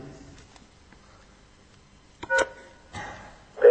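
Short electronic beeps from an answering system prompt a caller to record a message. A few brief tonal bursts rise out of a quiet background near the end.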